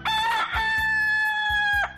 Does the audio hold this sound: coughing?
no